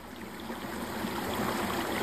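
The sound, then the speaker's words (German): Gentle babbling of a small brook, a steady wash of trickling water that holds at an even, moderate level throughout with no voices or other sounds. “Aber auch das sanfte Plätschern eines kleinen Baches finde ich richtig gut.”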